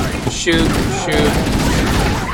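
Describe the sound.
Gunfire from the Halo video game in a fight against Covenant enemies: loud, rapid bursts of shots crackle continuously, with sharp repeated reports piling over one another throughout.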